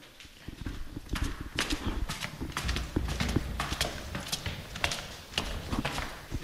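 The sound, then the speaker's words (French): Footsteps climbing a staircase inside a house: many hard, fairly regular steps sounding one after another at moderate volume, with no talk over them. “Je vous propose de monter les escaliers.”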